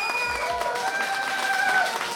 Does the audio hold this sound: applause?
yes